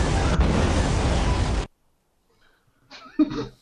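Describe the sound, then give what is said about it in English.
A loud explosion from a film, a dense, roaring blast that holds for about a second and a half, then cuts off abruptly into silence before a few faint vocal sounds. “What was that? So what was that exploding?”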